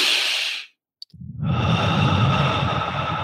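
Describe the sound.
A slow, deep breath taken during a guided relaxation exercise: an airy rush fades into brief silence broken by a tiny click, then a long, steady, breathy draw of air carries on to the end.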